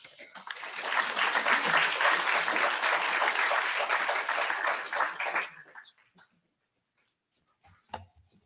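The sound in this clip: Applause from an audience welcoming a lecturer at a VMHC history talk: dense, steady clapping for about five seconds that quickly dies away to near silence, with one faint brief noise near the end.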